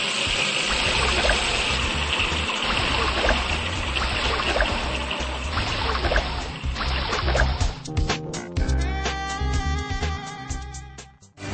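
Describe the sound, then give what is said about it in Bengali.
Water poured over a person's head makes a dense, continuous rushing splash that breaks up in the last few seconds into irregular spatters and drips, with no voices. “না ভাই ডালতে যে যে বসেন আপনি, শুনুন ঠান্ডা মাথায় বসেন, পানি ডালতেছি।”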